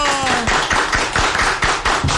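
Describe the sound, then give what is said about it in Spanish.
A few people clap in a radio studio booth to welcome a municipal president, many crisp, evenly spaced claps forming a steady rhythmic beat. “A ver, aplausos, muchachos.”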